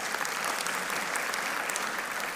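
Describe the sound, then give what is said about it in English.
Audience applause, a dense, steady wash of many hands clapping that holds evenly throughout at a fairly faint level, with no rise or fall. “Yeah, we should clap for that.”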